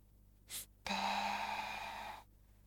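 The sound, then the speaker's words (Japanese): A deep breath: a short, quick inhale, then a pause and a longer, steady, sighing exhale with a slightly voiced, tonal edge. “吸って吐いて、深呼吸は気持ちいい。”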